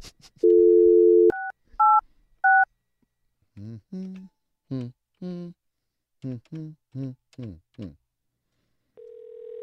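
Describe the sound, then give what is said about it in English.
A telephone number is dialed: a steady tone, then three short touch-tone beeps, followed by a voice speaking in short phrases and a final steady tone. “I think we just have her office number. That's what Phoebe gave to me. Let me see if her office rings to her voicemail.”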